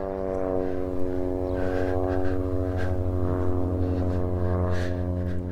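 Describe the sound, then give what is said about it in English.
A propeller airplane taking off near Provo Airport gives a steady droning engine hum with a strong buzzy tone, loud and unbroken throughout, with no voices over it. “I am right near the Provo Airport, which is why you might hear airplanes in the background. There's one right now. It looks like it just took off.”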